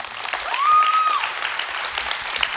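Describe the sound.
Congregation applause welcoming a guest speaker at a church celebration service: a short, dense burst of steady clapping at an even, fairly loud level.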